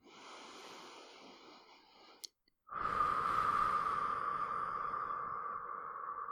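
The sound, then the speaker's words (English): Deep breathing during a guided countdown relaxation exercise: a long, airy breath, a brief pause with a small click, then a second long, loud breath that fades slightly toward the end. “Now let us take a deep breath again.”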